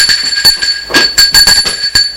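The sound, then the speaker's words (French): Doorbells ring at apartment doors on floor after floor of a building. A high, steady bell tone runs throughout, with a quick series of sharp clicks and knocks over it. “Il descend les étages. Sonne à toutes les portes.”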